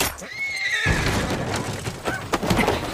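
A carriage horse whinnies in a high, wavering neigh near the start. Clattering hoof-like knocks and scuffling noises follow.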